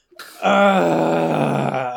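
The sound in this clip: A voice imitates a loud groan: one long, sustained, drawn-out moan that starts abruptly and holds steady at full loudness for well over a second with no talk around it.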